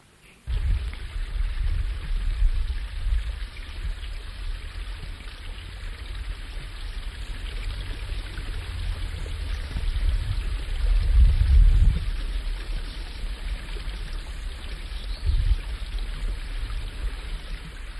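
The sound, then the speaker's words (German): The Nebelbach brook flows behind an old farmhouse, a steady rushing and gurgling of water with low rumbling swells that rise and ease at a few points. “Hinter dem Haus fließt dann das Bächli durch, der Nebelbach. Ein richtiger Bilderbuchbach.”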